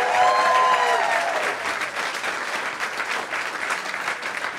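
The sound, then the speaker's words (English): An audience at a live music show applauds in steady, sustained clapping that starts a little louder and eases slightly, with a brief tonal note at the start. “Another round of applause, please, for Jack and for Larry.”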